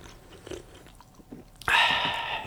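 Sipping Schweppes lemon lime soda: a few faint soft clicks and mouth sounds, then a sudden loud hissing, fizzy slurp that holds for the rest of the moment.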